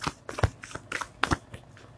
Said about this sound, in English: I'm gonna pull a few cards.